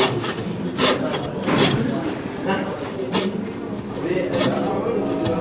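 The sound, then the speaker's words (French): Hand saw cutting through a lamb carcass at a butchers' school, giving a few rough, rasping strokes that scrape back and forth at an uneven pace. “Force pas sur ta lame de scie. C'est elle qui travaille, c'est pas toi. Toi, t'es là pour la guider.”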